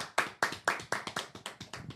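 Sharp hand claps from a small group, a quick run of many crisp, separate claps that start evenly spaced, then come faster and slightly softer toward the end.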